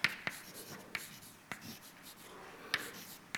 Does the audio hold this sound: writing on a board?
yes